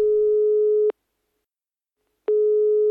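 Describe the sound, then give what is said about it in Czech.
Telephone ringback tone heard while calling a friend: a steady, low-pitched electronic tone cuts off, leaves a long silent gap, then resumes at the same pitch and loudness. “Volám Vaškovi.”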